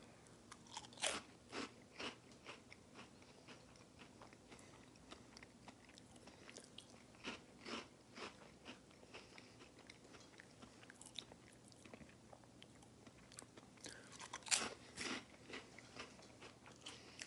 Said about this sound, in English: All right, so here we go. Let's try these. 3, 2, 1. Beer battered onion rings, hot version.